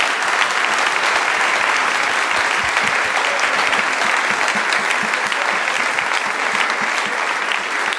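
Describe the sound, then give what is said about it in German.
Audience applause greets a guest arriving on stage at a live show: dense, loud clapping that holds steady for the whole stretch, with no voices over it. “Und wir begrüßen mit einem Riesenapplaus bei uns auf der Bühne Diana! Diana Rossi!”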